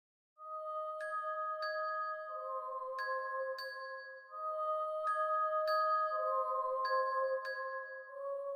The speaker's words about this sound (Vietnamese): Chiếc đồng hồ báo thức đặt trên đầu giường bỗng reo vang.